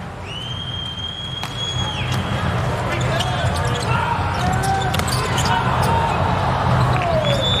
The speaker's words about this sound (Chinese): 哈内斯的发球，